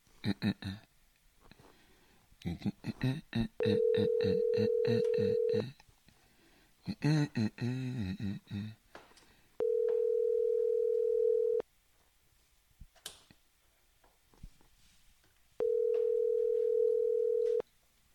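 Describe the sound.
A ringback tone on a telephone line: three long, steady mid-pitched tones of about two seconds each, separated by pauses of about four seconds, with voices and other sounds in the gaps before the first two tones.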